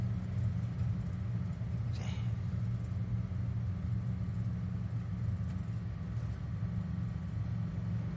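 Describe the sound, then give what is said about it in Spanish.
Government trucks drive by with a steady low engine rumble that stays even throughout. “Esperen, chicos, miren. Son camiones del gobierno.”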